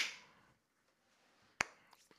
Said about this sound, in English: I honestly don't really know what the clapping does